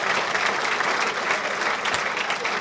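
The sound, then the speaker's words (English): Audience applause welcoming a missionary speaker at Fountain of Life, with the whole crowd standing and clapping in a dense, steady roar that holds evenly throughout. “Let's stand to our feet, let's put our hands together, and let's welcome missionary Lynn Berry to Fountain of Life.”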